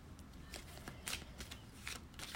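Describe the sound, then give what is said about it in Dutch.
Tarot cards are shuffled by hand in a few quick, soft papery bursts of riffling and sliding, quiet and unaccompanied by talk. “Oh, ik draai meerdere kaarten tegelijk om. Laat ik het even verder schudden.”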